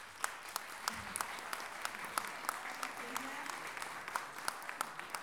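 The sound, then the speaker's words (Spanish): Light applause from a small audience at a book presentation: a quiet, sparse run of distinct individual claps at a fairly regular pace, with faint voices murmuring underneath. “por favor, un aplauso grande para la Olimpia”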